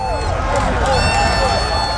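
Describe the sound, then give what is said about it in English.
Argentina fans at Boston City Hall Plaza roar as their team scores a late second goal against England, a short, dense burst of crowd cheering and shouting. “That's the sound of Boston City Hall Plaza as Argentina scored their second goal late in their 2-1 victory over England.”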